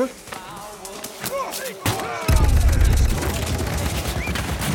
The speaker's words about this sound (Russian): Лазутчики открывают огонь по мелькающему среди верхушек деревьев еноту.